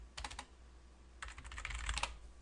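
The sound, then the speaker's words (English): Computer keyboard typing while committing code, a short burst of quick key clicks, a brief pause, then a longer, denser run of clacking keystrokes. “I cannot type apparently today.”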